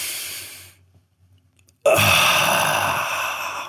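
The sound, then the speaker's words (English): Someone takes a deep cleansing breath in through the nose, holds it during a near-silent pause, then releases a loud, long, airy rush of breath out through the mouth that slowly tapers off. “You pull it in through your nose, you hold it for a couple seconds, then you release from your mouth. And it's a cleansing breath.”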